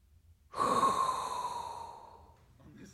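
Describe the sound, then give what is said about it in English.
A single breath drawn in: an airy rush that starts abruptly, carries a faint whistling tone and slowly fades over about a second and a half. “And that is inhale a hot breath”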